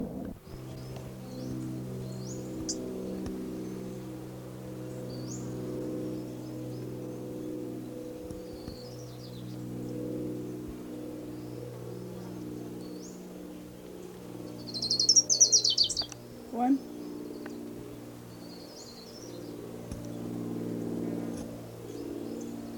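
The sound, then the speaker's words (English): Song of an orange-crowned warbler: many faint, high, quick chirps scattered throughout, with one louder, bright, rapid trill standing out midway, all over a steady low droning hum. “Here's Orange Crown Warbler number 2.”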